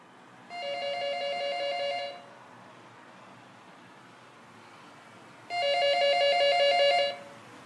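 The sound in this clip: Telephone ringing: two long electronic trilling rings, each about one and a half seconds, separated by a quiet pause.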